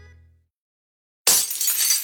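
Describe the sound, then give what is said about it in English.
Windshield glass cracks as a sound effect in an auto glass ad: after a faint fading tone and a moment of silence, a sudden bright, crackling shatter bursts in and rattles on for about a second. “Oh, what the heck? Cracked windshield?”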